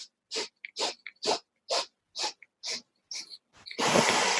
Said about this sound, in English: one of my favorite breaths is an eight stroke breath. And it's basically you inhale eight strokes through your nose